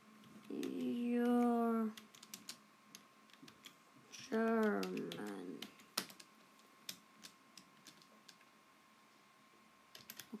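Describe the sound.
Keys click on a computer keyboard in an uneven run of light taps. Before the typing, a voice sounds twice, briefly.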